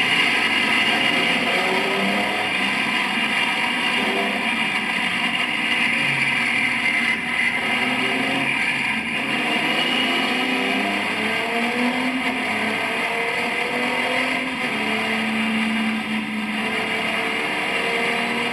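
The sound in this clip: Racing car engine during a race as the driver eases off the throttle near a wall on a start-finish straight: a steady, loud drone with harmonic whine that wavers in pitch as the power is backed off.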